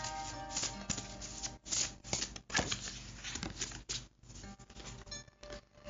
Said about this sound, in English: Shuffle and see what we most need to know for our feminine, our divine feminine.